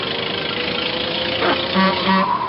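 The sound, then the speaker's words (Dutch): An old car approaches with its engine running in a steady, humming drone, and two short horn toots sound near the end. “Kijk uit. Komt er weer een. Het was de oude schicht, het voertuig van heer Olivier B. Bommel.”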